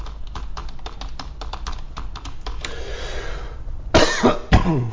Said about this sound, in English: this is my typical coughing regime, so I think I'm pretty okay, huh?